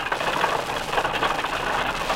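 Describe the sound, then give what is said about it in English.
Wheels grind on pavement beneath an old-fashioned, dilapidated lumber wagon loaded with three logs, making a continuous, rough, rumbling noise at a steady level throughout. “That was the grind of these wheels from this old-fashioned lumber wagon on the pavement.”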